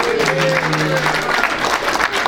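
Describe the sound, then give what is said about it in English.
Audience applause follows a guest's contribution at an informal gathering: a steady, continuous burst of clapping with a voice briefly rising over it near the start. “Thank you, Anna, and another round of applause.”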